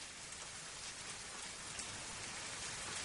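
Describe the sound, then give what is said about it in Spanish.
Rain falls on a country house as a faint, steady patter and hiss that stays even throughout, with no other sounds. “Llueve sobre una casa de campo.”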